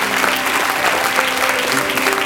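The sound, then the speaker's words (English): A church audience applauds with dense, continuous hand claps that stay loud and even throughout, with no pause in the clapping. “Would you give Jesus a hand clap? Come on, let's thank the Lord for his goodness.”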